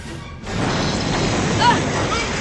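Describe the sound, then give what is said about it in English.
An explosion as a starship is hit by weapons fire: a sudden loud burst of noise after a brief quiet start, then a continuous heavy rumbling roar. “So he shoots at the Excelsior. Excelsior's been hit!”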